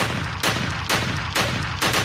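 Gunshot sound effect opening a comedy segment: a loud run of sharp, evenly spaced bursts of gunfire, roughly every half second, with nothing else heard.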